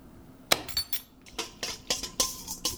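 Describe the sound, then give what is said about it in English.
A whisk beats yeast and water in a bowl, making a quick, irregular series of light metallic clinks and taps, fairly faint. “And beating it along with a whisk a little bit.”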